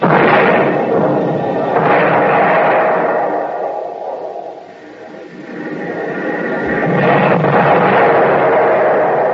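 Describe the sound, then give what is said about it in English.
Large artillery shells land and explode, giving a heavy, loud rumbling roar that swells, dips briefly and builds again. A deep low thud comes partway through. “Every time a shell lands, they get closer. Wonder what they're using. We ain't got stuff that big in the Army.”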